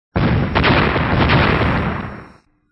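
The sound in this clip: Six golden light orbs exploding at once, heard as one loud, roaring magical blast that swells quickly and rumbles on steadily for about two seconds before cutting off, with no voices.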